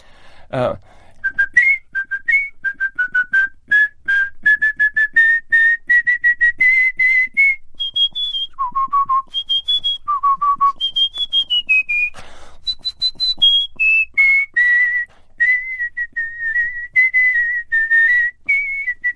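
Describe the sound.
A champion whistler whistles part of a multi-voice rock song melody: a long run of clear, bright notes that step up gradually, dip low twice, then leap higher before settling, with a short click at the start.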